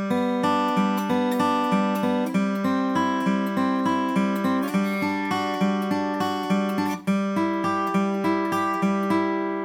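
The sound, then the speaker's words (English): Guitar notes in a banjo-style forward roll played with finger picks, moving through chord shapes from open strings up the neck. Bright plucked notes run in a steady, unbroken rhythm and shift pitch with each chord change. “Take that same exact roll over the chord shapes I just showed you, starting with open, second and first fret, third and fourth, and fifth. Would sound like this.”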